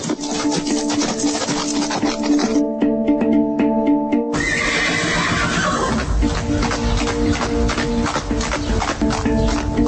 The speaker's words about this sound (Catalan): sóc el primer que sento el clop-clop dels cacs i veig el pelatge vermellós com l'argila de l'euga alatzana